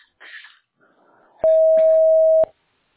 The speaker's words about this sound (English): Record your message at the tone. Press any key or stop talking to end the recording.